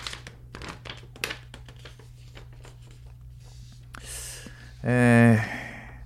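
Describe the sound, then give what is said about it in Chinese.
Paper crinkling and tearing as an envelope is opened and a folded letter is pulled out and unfolded: a few short, dry crackles and rustles, then a brief voiced sigh-like sound near the end. “好吧啊，那我就打开信封啊，念出来哈、啊，我念出来，大家比较明白嘛啊。”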